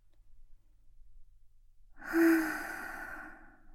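A single slow, deep exhale during a guided breathing exercise: a breathy sigh that begins with a brief voiced tone, then trails off softly after a quiet stretch.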